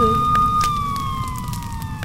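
A fire engine siren wails as one steady tone that slowly falls in pitch over a dense rushing, crackling background, like a sound effect for a burning-sea fairy tale.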